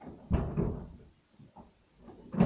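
A drawer being handled and put away: dull wooden knocks and low scraping thuds, with one heavy bump near the start and another at the end, separated by quieter rubbing.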